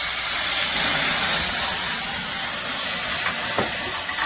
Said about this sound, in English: Now we're building our sauce. Be careful, that may splatter just a little bit.